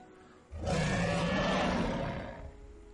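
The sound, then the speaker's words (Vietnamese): A sea beast roars fiercely, one loud, rough, sustained growling roar that erupts suddenly, holds for about two seconds, then tapers off. “Nó cuồng bạo phát ra một tiếng gầm thét chấn nhiếp nhân tâm”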